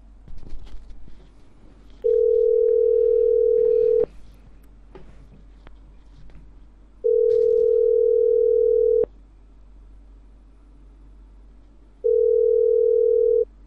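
A telephone ringback tone plays while a number is being called: three long, steady beeps at the same mid pitch, evenly spaced by pauses of a few seconds, over faint background noise.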